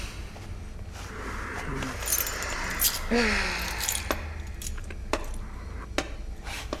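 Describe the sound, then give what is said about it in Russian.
A bunch of keys jangling as it is handed over: scattered metallic clinks and rattles across several seconds, some sharper bright jingles standing out over a low, quiet background. “Ключи давай.”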